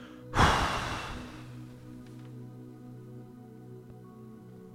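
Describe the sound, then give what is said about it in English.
A long, breathy exhale after a deep breath, taken during a guided stretch with the arms lowered and the eyes closed. It is a single loud rush of breath that begins sharply and fades over about a second, above a soft steady drone. “take a deep breath. And then look up between your hands. And then close your eyes and let your arms come back down. And let a nice big long exhale out.”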